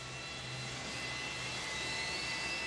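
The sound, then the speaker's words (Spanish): Airplane taking off, used as the opening sound of a nightclub night: a steady, broad jet engine roar with a high whine on top, loud and unbroken throughout. “Como que el avión tomaba vuelo.”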